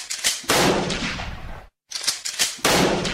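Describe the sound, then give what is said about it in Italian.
Pistol shots in the streets of Sarajevo in June 1914: several sharp, loud bangs with ringing tails, in two groups split by a brief moment of silence. “Colpi di pistola nelle strade di Sarajevo il 28 giugno 1914”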